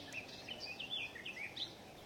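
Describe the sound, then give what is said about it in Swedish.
Willow warbler and garden warbler singing: faint, high, quick chirping notes repeating throughout over a steady background hiss. “Just nu är det lövsångare och trädgårdssångare som sjunger.”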